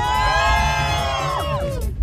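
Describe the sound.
A group shouts together in a loud, sustained, chant-like cry that holds steady and then drops in pitch near the end.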